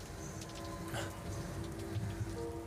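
Steady rain falling on a route through thick cloud: a dense, even hiss of drops with faint pattering on surfaces. No voices, and it stays constant for the whole short stretch.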